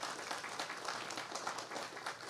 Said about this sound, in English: Let's go ahead and give them a round of applause real quickly.